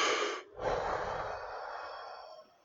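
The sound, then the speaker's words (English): A deep breath: a short breathy rush, a brief break, then a longer, steady airy sound that slowly fades away. “Just take a deep breath.”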